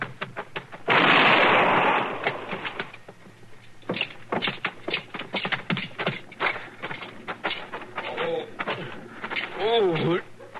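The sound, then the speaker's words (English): Gunshot in a radio western drama: one loud, sharp blast with a long, rumbling tail lasting about a second, followed by voices talking. “Stop or I'll shoot.”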